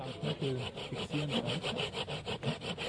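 A knife whittles wood with rapid, rhythmic scraping strokes, many in steady succession. The rasping is fairly faint and heard without talk.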